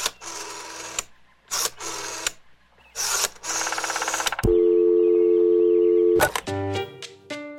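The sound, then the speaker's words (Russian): Telephone call tones play during a call: a few short bursts of buzzing, then a long, steady, loud tone, then a quick run of short beeps. “Позвоним-ка Добрыне.”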